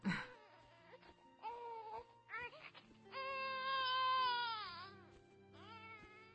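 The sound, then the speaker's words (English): An infant crying in a recorded sound file: several loud, wailing cries with strong harmonics, including one long sustained wail in the middle, separated by brief pauses and heard alone. “You would not believe how hard it is to find a sound file of a baby crying.”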